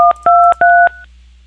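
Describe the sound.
Telephone keypad DTMF tones dial a room extension on a motel's automated phone line. Three short, loud dual-pitch beeps come at an even pace with brief gaps, followed by quiet.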